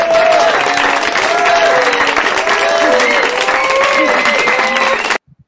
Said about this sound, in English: I need more claps for you. I turned it down a bit. It was loud.